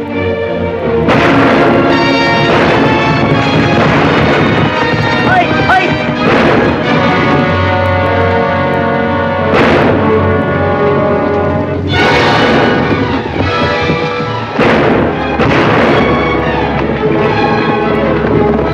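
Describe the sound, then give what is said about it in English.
Gunshots ring out as horsemen fire on workers at a vineyard: several loud, sharp blasts spaced a few seconds apart over a dense, continuous sustained background. “A group of Coffin's men ride up to the vineyard on horseback, shoot one of Fabian's workers, then turn their guns on Fabian.”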